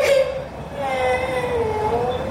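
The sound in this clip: A young girl whimpers and cries after a minor burn, a long, wavering, moaning wail that stays fairly loud and unbroken throughout.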